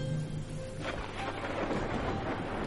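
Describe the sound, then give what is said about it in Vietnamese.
Rain falls outdoors while wind rushes past. The broad, steady roar swells noticeably after a moment and then stays dense and continuous to the end. “Ngoài trời gió vẫn rít, mưa vẫn rơi.”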